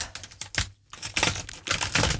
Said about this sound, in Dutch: Met de schaar.